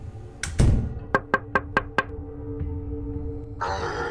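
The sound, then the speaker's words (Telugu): Five evenly spaced knocks on a window, struck at night by a dark figure outside. They are sharp and loud and follow a soft rustle and thump, with a hiss of noise rising at the end. “కిటికీ బయట ఏదో నల్లని నీడ నుంచొని కొడుతూ ఉంది”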